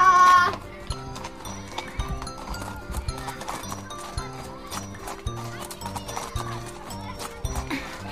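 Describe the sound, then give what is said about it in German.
Horse hooves clip-clopping as a horse is ridden through a garden, a steady rhythmic clopping that continues for the whole clip. “Pippa, wir reiten wie die Ritter. Wir reiten durch den Garten,”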